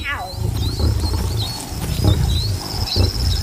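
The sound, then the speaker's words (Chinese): Lions of a well-fed pride, with a young female cub meeting its father, give low rumbling growls in a few heavy bursts, with faint high bird chirps overhead. “这群狮子最近过得不错”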